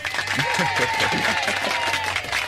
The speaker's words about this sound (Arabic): برافو عليك. وهيدي بيطلع لك زقفة